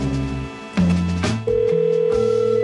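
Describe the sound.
An outgoing telephone call ringing out, with a few shifting electronic tones that settle into a steady, sustained ringback tone.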